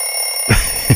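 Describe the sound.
A morning alarm clock ringing in two short, loud buzzing bursts over a steady high tone, with no voices.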